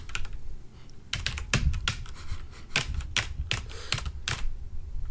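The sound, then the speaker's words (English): Typing on a mechanical keyboard: many sharp, bright key clicks in irregular bursts and clusters, fairly loud against a quiet background. “Do we have to be like funky and then like you have to mash on your keys? So you have to be, hold on, I have a mechanical keyboard.”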